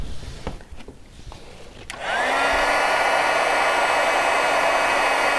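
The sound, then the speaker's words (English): A heat tool used to heat-set paint colors switches on after a few faint taps, its whirring blower quickly rising in pitch and then holding a loud, steady rushing hum. “okay, now that I'm happy with my colors, I wanna go ahead and heat set them.”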